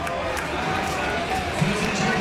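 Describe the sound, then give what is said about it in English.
A home crowd at a rugby league match roars after a penalty is awarded to the Cronulla Sharks, producing a loud, continuous wash of cheering that stays steady throughout. “Yeah, the home crowd were very happy to receive that penalty. They're really getting behind their team, trying to give them a bit of a lift.”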